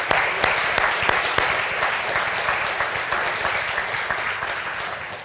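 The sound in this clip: An audience claps to welcome a speaker, a sustained, fairly loud wash of many hands that carries on throughout and eases slightly toward the end.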